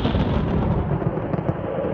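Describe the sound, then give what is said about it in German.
Sandstorm and thunderstorm sound effect for a desert Ghibli wind: a loud, steady roar of rushing wind with a deep low rumble throughout, and no distinct thunder crack. “Ein Sandsturm und Gewitter bricht über unsere Helden herein.”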